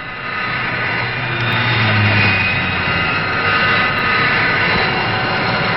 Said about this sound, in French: À Mont-de-Marsan, on étudie les conditions d'emploi des nouveaux avions, comme le Vautour, chasseur tout temps à réaction.